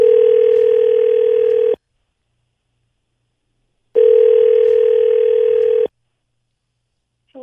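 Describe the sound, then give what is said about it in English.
Telephone ringback tone while a call is placed: two long, steady, even-pitched rings of nearly two seconds each, separated by about two seconds of silence, with a short sound starting at the very end. “Can we please call her?”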